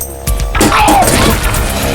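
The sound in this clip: A thrown crowbar slams into a Rolls-Royce car with a sudden, loud metallic crash, followed by a sustained clattering rumble.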